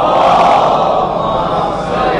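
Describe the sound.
A crowd at a religious gathering shouts the slogan Naara-e-Haideri in response. Many voices merge into a loud, sustained roar that stays strong throughout.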